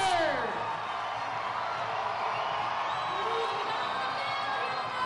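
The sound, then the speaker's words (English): Crowd of Grizzly baseball fans cheering and whooping between innings, a sustained roar of many voices with a sharp whoop at the start and scattered shouts over an even wash of noise. “Grizzly fans, let me hear you make some noise if you want a”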